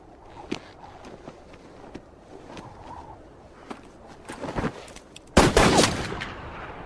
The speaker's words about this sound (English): Gentlemen, shooting cornbread out here on the prairie is getting us no closer to the Ned Pepper gang.